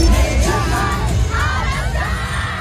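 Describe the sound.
Fans outside a concert arena scream and cheer as a performer shakes their hands. A dense, loud wall of shrill yells, whoops and shrieks carries on without a break.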